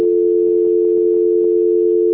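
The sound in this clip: A steady telephone tone plays during a call transfer: one unbroken, even-pitched electronic hum that holds loud and alone for about two seconds.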